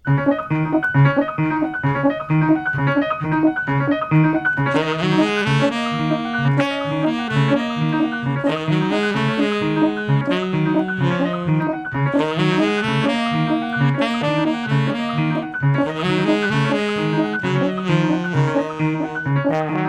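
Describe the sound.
Instrumental ensemble music from a record plays sustained, layered harmonic chords over a steady rhythmic pulse, with brighter, fuller passages swelling in several times and dropping back throughout.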